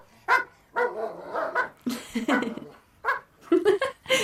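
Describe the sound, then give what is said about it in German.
Dobermans bark repeatedly in a home yard, a series of short, harsh barks in uneven bursts with brief pauses between them. “Die Hunde bellen. Einer bellt immer.”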